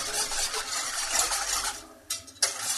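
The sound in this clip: A whisk stirs a flour-thickened white sauce as it cooks in a pot, making rapid, continuous scraping strokes. A couple of sharper metallic clinks come near the end.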